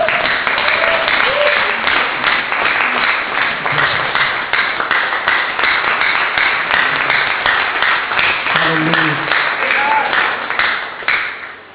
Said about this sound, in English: So with Jesus Joy, standing ovation, can you welcome Reverend Tolu Abiodun?